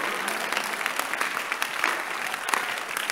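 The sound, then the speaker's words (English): Dense, steady clapping from an audience applauding Jesus during a sermon. The claps crackle evenly and stay at a moderate level throughout, with no voices over them. “Blessed are those who are clapping for Jesus.”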